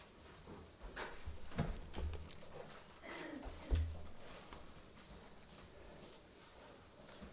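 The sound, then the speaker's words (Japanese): A window is opened to air out the room during a church service, giving a few faint clunks and sliding rattles spread over several seconds against quiet room noise. “先生、少し換気しますか。今開けてましたけども、ちょっと開けますか。すみません、少し開けていただいて”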